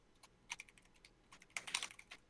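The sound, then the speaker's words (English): Keys clatter on a computer keyboard during a quick online search: faint, irregular bursts of crisp clicks, with short pauses between runs of keystrokes. “Hold on, let me Google because I want to say it's right.”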